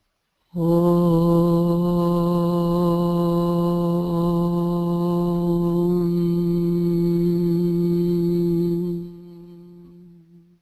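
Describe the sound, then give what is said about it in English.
A group chants a single long Om together, holding a steady, low, resonant tone for about eight seconds before it thins and fades out. “To confirm the group alignment, we sound the Om as a group.”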